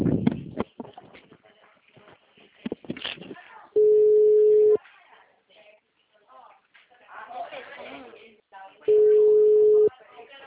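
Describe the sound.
A telephone busy signal on a line that won't connect: two long, steady tones, each about a second, separated by stretches of people talking.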